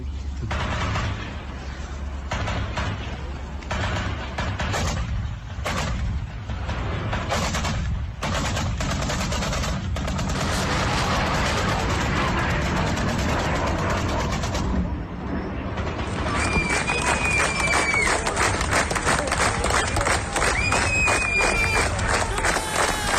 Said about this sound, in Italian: Radio 3 Mondo, ascoltiamo i suoni di una parte di questi scontri